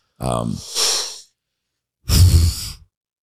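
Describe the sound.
Queef sound effect: two short, breathy bursts, the first opening with a brief voiced tone that thins into an airy hiss, the second a rougher exhale with a low fluttering buzz.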